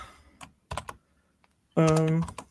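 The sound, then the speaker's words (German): Typing on a Logitech K120 computer keyboard: a few quick, light key clicks at uneven spacing, followed by a short voiced sound near the end. “Deine Tastatur dann, klingt sehr schön. Ja, es ist aber keine besondere. Eine Logitech K120.”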